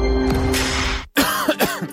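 Coughing in a radio advert for cough syrup: after a stretch of steady noise and a brief silence, a few rough, throaty bursts in quick succession, loud and without talk.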